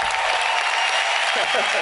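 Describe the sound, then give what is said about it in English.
Applause for a group of young gospel singers from the Bahamas at a live event: steady, dense crowd clapping that holds at an even level for about two seconds. “They need a lot of applause. That's a long trip.”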